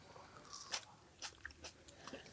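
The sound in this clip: A faint bite into a very dark, plum-like tomato, giving a few soft, wet crunches and chewing sounds that come and go over a quiet background.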